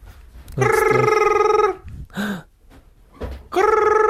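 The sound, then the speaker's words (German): A telephone rings in two sustained, bright electronic bursts, the second cut off at the end, separated by a gap holding a brief, quieter sound. “geh doch ans Telefon”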